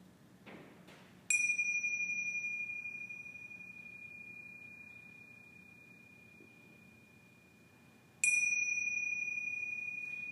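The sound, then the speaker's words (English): A meditation chime marks the end of a session, struck twice several seconds apart; each strike gives a bright, pure ringing tone that hangs and slowly fades over a quiet background. “In the next few moments, you'll hear the sound of the chime, marking the end of this meditation.”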